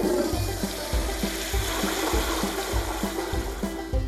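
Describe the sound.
A toilet flushes after someone urinates, a steady rushing, gurgling water noise that runs throughout over a regular low rhythmic pulse.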